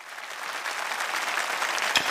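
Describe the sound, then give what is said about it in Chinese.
Applause from an audience at a singing competition welcoming the next challenger: dense, steady clapping that holds at an even level throughout. “接下来让我们有请第三名的挑战者，掌声欢迎。”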